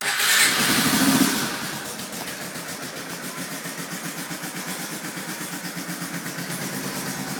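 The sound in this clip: A Honda engine starts with a loud burst of roar for about a second and a half, then settles into a steady, throbbing idle with an even, pulsing rhythm.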